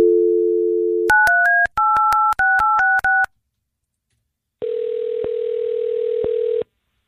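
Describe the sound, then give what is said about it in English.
A steady telephone dial tone gives way to a quick run of many keypad dialing tones in short bursts. After a brief silence, a long, even ringing tone sounds alone. “Okay, so we're going to get your cousin Nick on the phone.”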